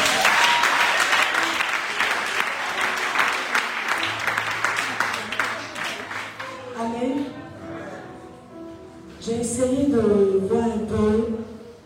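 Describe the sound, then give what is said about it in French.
A church audience applauding to acclaim Jesus, with loud, continuous clapping for several seconds that then thins out as a single voice begins speaking, followed by a further swell of applause near the end. “Est-ce qu'on peut encore acclamer Jésus?”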